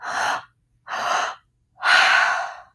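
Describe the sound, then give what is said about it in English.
Three-part breathing demonstration: two audible inhales, first to the low belly and then to the high chest, followed by a longer, louder exhale through the mouth, each separated by a brief pause. “it's a three-part breath in and out through your mouth. You inhale to your low belly with the inhale, inhale to your high chest, and then exhale through the mouth. So it sounds like this.”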